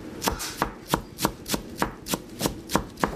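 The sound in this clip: A chef chops herbs for a chicken marinade in a Beirut restaurant kitchen: ten sharp knife strikes on a board fall in a steady, even rhythm, with no talking.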